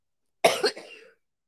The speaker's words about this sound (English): You can't make her laugh when she's coughing.